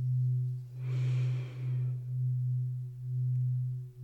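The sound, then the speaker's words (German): A deep breath drawn in during a guided meditation: a soft, airy rush lasting about a second that swells and fades over a steady low hum. “Und nochmal. Tief einatmen.”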